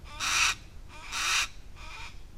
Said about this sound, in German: Weil das kann ganz schön nervig sein, das Rufen. Gerade das zum Beispiel von unserem Steinadler da hinten.